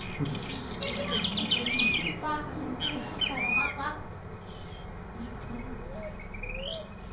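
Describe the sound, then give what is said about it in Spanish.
A chick chirping, with a cluster of high, thin chirps early on and a few fainter, scattered peeps later over a steady background murmur. “Un pollito.”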